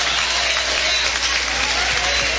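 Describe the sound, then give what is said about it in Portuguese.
Applause from a church audience, a dense, steady wash of clapping at constant loudness without pauses. “Mais alegres são as palmas para Jesus.”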